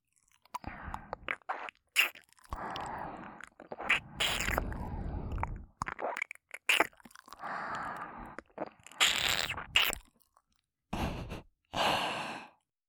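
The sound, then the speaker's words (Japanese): Soft, wet kissing sounds on the ear in a Japanese ASMR role-play. Many moist lip smacks and breathy sighs come in irregular bursts, separated by brief silences, with no talking. “現役 JK の耳キスをお耳でたくさん味わうんだよ。”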